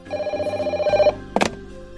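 A telephone bell rings in a rapid, steady train of pulses for about a second, then stops, followed by a brief clattering burst and quiet; no one speaks.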